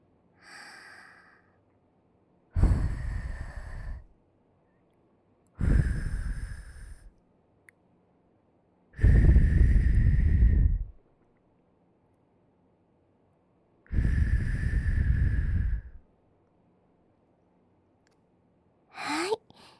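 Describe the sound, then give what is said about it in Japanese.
Soft blowing into the ear during an ear-cleaning session. Four strong, breathy puffs are separated by quiet pauses, with a fainter puff at the start and a short one at the end, and no talk. “それじゃ軽くフーフーしますね。”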